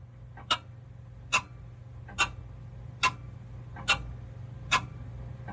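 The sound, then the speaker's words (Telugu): A pendulum clock ticks with six crisp, evenly spaced clicks, each a little under a second apart, in a steady rhythm over a low, constant hum. “Pendulum tick tock tick talk అని sound చేసుకుంటూ అటు ఇటు కదులుతూ ఉంటుంది.”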